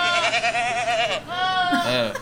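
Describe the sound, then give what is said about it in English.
Long, quavering goat bleats, loud and nasal with a shaky vibrato, running almost continuously with only a brief pause between calls. “Is that a sexing goat or a cheesing goat?”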